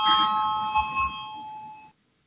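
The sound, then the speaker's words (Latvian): An electric bell rings in a parliament chamber before a vote, a steady metallic ringing held for nearly two seconds before cutting off abruptly. “Lūdzu zvanu.”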